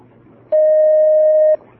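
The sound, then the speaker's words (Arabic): A single steady telephone beep marks a call being connected, loud and held for about a second over a faint low hum, with nothing else around it. “نأخذ اتصال آخر.”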